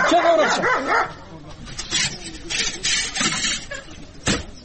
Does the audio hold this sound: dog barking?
yes